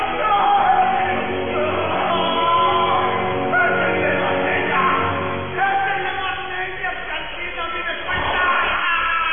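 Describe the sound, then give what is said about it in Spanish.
A man accused of heresy screams and wails in pain. The anguished cries are strained and loud, and they run almost without a break for about nine seconds, with only brief dips in level. “Sus gritos de dolor invaden el ambiente y nos estremecen.”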